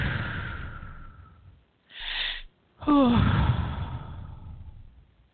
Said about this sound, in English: Just breathe in.